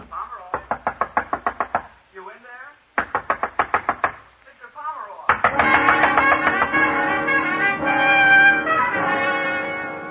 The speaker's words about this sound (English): The bellboy out there pounding on the door.